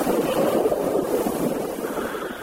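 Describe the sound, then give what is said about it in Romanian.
Strong wind blowing, a loud, broad rushing roar that stays even and continuous throughout, with no voices. “un vânt puternic care duce miresmele ceaiului magic preparat de Maia în sus, spre casa somnului, unde deschide singur ușa.”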